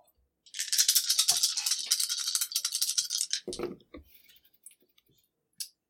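Dice are rolled for an attack in a tabletop role-playing game, giving a fast clicking rattle for about three seconds, then a lower knock and a few faint clicks, with one more click at the end.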